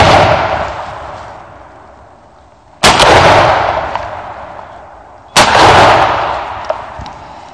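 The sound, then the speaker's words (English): Gunshots from a turkey hunt ring out: three loud, sharp reports spaced a few seconds apart, each followed by a long echo that fades slowly. “Are you supposed to get three misses on camera? I don't know, that last shot may have gotten it.”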